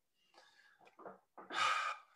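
Heavy breathing from someone catching their breath: a few ragged breaths build to a long, loud, rushing exhale near the end, with no talking.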